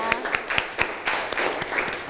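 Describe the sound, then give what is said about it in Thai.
Scattered applause from a Thai science classroom as students clap for group 1 after their answer about thalassemia genetics: many uneven, sharp handclaps, fairly light, with some background voices. “อ้าวปรบมือให้เพื่อนกลุ่มที่1นะคะ”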